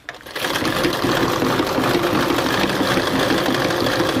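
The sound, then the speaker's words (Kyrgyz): Sewing machine stitching a traditional Kyrgyz belt, running as a steady, continuous mechanical whir with a fast rattle after a brief quiet start, with no talk over it. “кемер, кемер тигип атам. Азыр оймалар түшүрүлөт, просто эле буну тигип атам”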